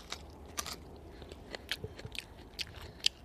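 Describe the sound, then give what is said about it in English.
Crisp bites into fresh bush asparagus give a series of faint, crunchy snaps and crackles with short chewing sounds between them, scattered irregularly and without talk. “Should I bite it, or do you want to bite it? Here, you bite it. I'll bite it. Sorry, I just bite it. Bite the end, dear.”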